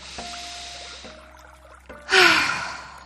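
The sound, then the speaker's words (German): A deep breath in during a guided relaxation exercise, one loud, airy inhalation near the end, heard over faint, sustained ambient music tones. “Atme tief ein”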